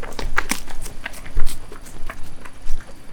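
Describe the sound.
Children's footsteps as they run a race, a quick irregular patter of light steps with a few heavier footfalls mixed in over a few seconds.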